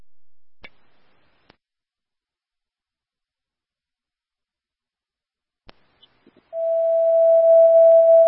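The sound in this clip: An emergency dispatch alert tone sounds after a few scattered clicks, then holds as one steady, loud, unbroken pitch through to the end.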